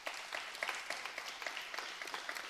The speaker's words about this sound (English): So give them a hand and give God a hand.